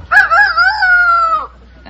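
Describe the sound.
A person's voice imitates a rooster crowing in one long, loud, strained call. It holds a steady, nasal pitch for over a second, then drops off abruptly, with no other sounds around it.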